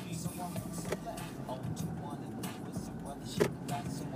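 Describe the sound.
Slow-moving cars along a street with a sewage smell, giving a low, continuous rumble of engines and tyres that swells now and then as vehicles pass, with voices talking over it.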